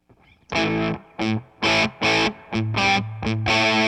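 Fuzzy, saturated electric guitar from the bridge pickup of a Strat, played through a Boss Waza-Craft Tone Bender fuzz pedal: a few loud, separate distorted chords, then a quicker run of chopped notes with a thick, buzzing, gritty edge and no talk.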